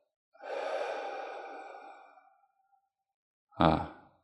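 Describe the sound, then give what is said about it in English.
A person takes a deep breath during a guided breathing exercise, one long, soft, airy breath lasting nearly two seconds, then a silence and a short, sharper, louder breath sound. “Take a moment to experience it. Breathe in deeply. Then breathe out.”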